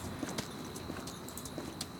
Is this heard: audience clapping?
no

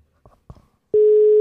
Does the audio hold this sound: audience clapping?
no

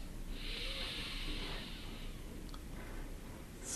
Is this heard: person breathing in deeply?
yes

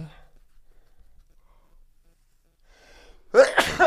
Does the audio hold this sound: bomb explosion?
no

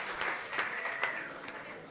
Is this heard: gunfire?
no

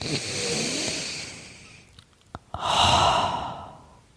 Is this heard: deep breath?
yes

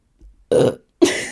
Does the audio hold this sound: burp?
yes

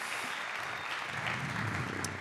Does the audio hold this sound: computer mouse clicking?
no

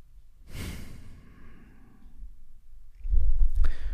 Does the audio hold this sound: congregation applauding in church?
no

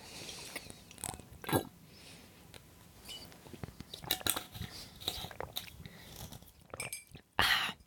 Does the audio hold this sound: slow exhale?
no

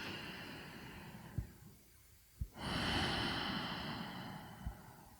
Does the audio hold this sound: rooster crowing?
no

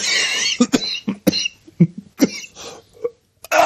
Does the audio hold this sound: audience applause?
no

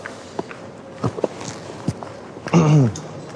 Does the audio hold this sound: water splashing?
no

